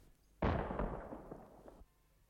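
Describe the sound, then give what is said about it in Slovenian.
A single blank shell fired: one sharp, loud blast that decays into a rumbling tail lasting about a second and a half, then quiet. “Slepo granato so ustrelili. Slepo granato.”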